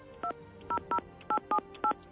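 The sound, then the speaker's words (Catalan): Touch-tone telephone keypad dialing as a call is placed to warn police of a car bomb left in a supermarket car park: six short, evenly loud dual-tone beeps in an uneven rhythm, with no voices. “Una trucada en nom d'ETA avisa la Guàrdia Urbana de la col·locació d'un cotxe bomba a l'Hipercor.”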